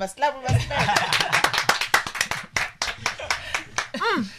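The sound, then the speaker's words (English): Hosts clap their hands to open a show: a long, quick run of sharp claps in a fairly steady rhythm, with talking and chuckling mixed in. “we must clap. That's how we open the show.”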